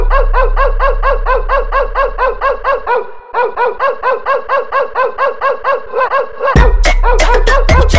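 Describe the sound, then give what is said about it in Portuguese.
Dogs bark in a long, steady run of rapid, evenly spaced barks, then break into louder, sharper, more ragged barking near the end. “Olha os cachorros latindo.”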